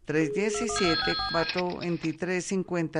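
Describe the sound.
A telephone rings for an incoming call on a phone-in line: a short, high, bright ring lasting under a second, partly buried beneath continuous talk.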